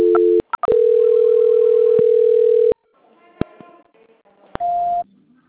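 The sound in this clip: Telephone tones during a call transfer: two short beeps, then a loud steady tone lasting about two seconds, quieter line noise with faint clicks, and one more short tone near the end.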